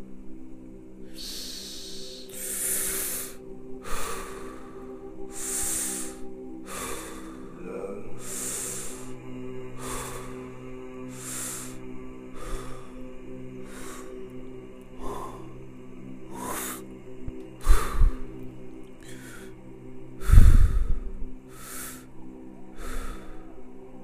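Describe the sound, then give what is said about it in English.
Breathing during a breathwork exercise: many short, soft breathy bursts repeat at a fairly even pace over a faint steady hum, with two slightly louder breaths near the end. “Inhale again, slow and steady.”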